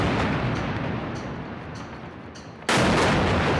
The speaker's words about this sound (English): That was the sound of a 13-storey building that housed both Associated Press and Al Jazeera, destroyed by Israeli precision bombing.